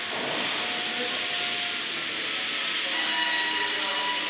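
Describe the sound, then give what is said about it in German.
A carpentry joinery machine makes its first cut into a 12-metre timber beam, a steady loud hissing whir that holds throughout and turns brighter near the end. “Greift das Holz und über die Lichtschranken in der Maschine wird erkannt, wo es anfängt. Und die Maschine macht den Anschnitt.”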